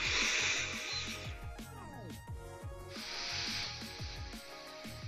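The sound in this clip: Forceful exhalations through a breathing training device for athletes: two long, loud hissing breaths separated by a pause filled with rasping, squeaky tones.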